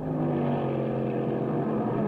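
A steady, loud engine roar from race cars battling on a road-racing circuit, a dense continuous drone with no distinct single pass-by standing out.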